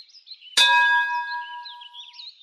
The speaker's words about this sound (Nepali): बेल।